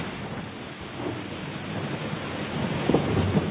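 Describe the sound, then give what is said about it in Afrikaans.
Thunder of an approaching storm over the sea: a low, continuous rumble with rain-like hiss that swells slightly toward the end. “Ek dink ons gaan vandag 'n storm kry.”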